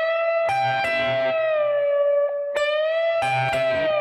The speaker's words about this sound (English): And then what I'm going to do is I'm going to pick that 15, that second string again, and I'm going to bring it back down so it sounds like this.